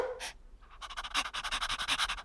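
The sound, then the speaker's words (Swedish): A large dog panting in a yard: after a short, faint lead-in, a quick run of many rapid, breathy huffs repeats in a steady rhythm at moderate loudness, with no talking. “Hon gick nu ut och frågade stora vovven på gården.”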